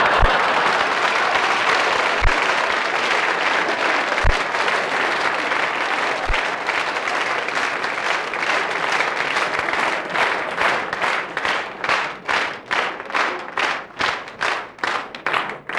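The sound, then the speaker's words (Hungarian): Audience applause at a cabaret show: dense, loud clapping that settles into steady rhythmic unison clapping during the second half, with a few dull thumps early on. “Ez a taps azt jelenti, hogy menjünk?”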